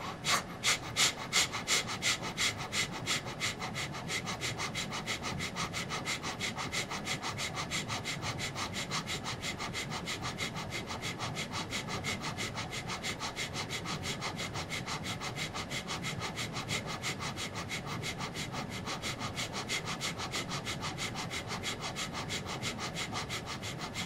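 Breath of fire, a rapid breathing exercise done during a morning meditation with the hands raised above the head: many quick, even, forceful breaths through the nose in a fast, regular rhythm that carries on throughout.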